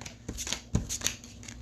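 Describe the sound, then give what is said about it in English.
Playing cards being drawn and handled during a superhero card game: a short run of faint, quick papery flicks and slides, a few crisp snaps among them. “Wait. We're here again where I'm drawing all the cards.”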